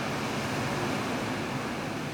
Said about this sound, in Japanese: こんな波音がね、部屋から聞こえるんですよ。